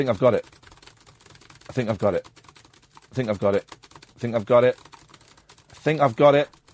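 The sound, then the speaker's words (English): Brisk typing on a computer keyboard, with light, rapid clicks running throughout. Short voiced bursts from a person sound over the keystrokes at intervals. “I'm just going to type loads. See if I've got it.”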